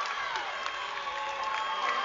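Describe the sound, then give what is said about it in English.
A home crowd at a high school basketball game erupts after a breakaway dunk and foul, giving a loud, sustained roar of cheering and shouting that holds steady throughout. “Jagger Worley and the Mountain View crowd losing their mind”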